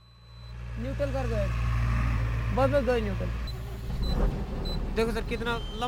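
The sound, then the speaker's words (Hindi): A truck engine cranks slowly and at length, struggling to start in freezing weather with light snow falling. A low, steady mechanical drone swells and shifts, with voices heard over it. “अपना truck start करके बताने की कोशिश कर रहे थे कि ठंड की वजह से उनका ट्रक लंबा सेल्फ लेता है”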